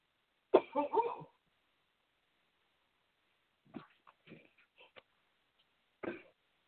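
A person clears their throat: one loud, rough rasp, then a few softer throaty clicks and grunts, and a final short rasping burst, with no talk around them.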